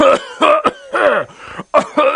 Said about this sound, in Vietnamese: Âm thanh khàn khàn thoát ra khỏi miệng Thiên Cơ Tử, gã ho khù khụ, bọt máu trào ra khóe miệng.